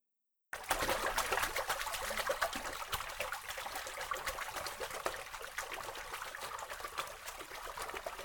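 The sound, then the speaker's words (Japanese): Bath water swished and trickling as lotion is stirred into it to thicken it: continuous gentle sloshing with many small splashes and drips, steady after a silent start, with no voices. “私のとっておきのローションをお風呂に入れちゃった。 あ、逃げちゃダメだよ。今立ち上がると滑って危ないよ。 ほら、観念して一緒にかき混ぜて。”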